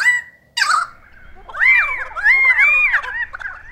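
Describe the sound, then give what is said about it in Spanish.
Pied butcherbird call: clear, fluting whistled notes in several arching, melodic phrases, loud and bright, with a sharp higher note near the start. “Primero escucharán al ave imitada y luego al ave lira real. Un verdugo pío.”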